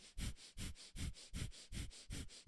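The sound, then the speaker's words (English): Rapid forced breathing, each exhale pushed out in a short burst, repeats in a steady quick rhythm of about three breaths per second. The rushing, sniff-like puffs are fairly loud and there is no talking between them. “Take in a deep inhale and then push it out in 1 second increments. It's automatically going to force you to go in and out.”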